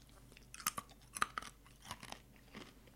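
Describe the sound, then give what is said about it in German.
Someone chews a dry biscuit, producing a series of quiet, irregular crisp crunches with softer mouth sounds between them, no talking. “Ich esse zwar gerade noch diesen Keks auf”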